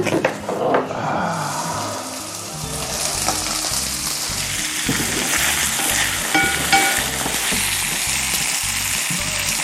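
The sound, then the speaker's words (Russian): Onion frying in a cast iron pan until golden, with a continuous loud sizzle and crackle. Intermittent stirring and scraping sounds run through the steady hiss. “До какой степени обжариваем лук? До золотистости.”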